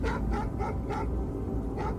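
Dogs bark in a rapid flurry of short, sharp yaps. The barks come as a few quick bursts that hold steady and loud for the whole moment.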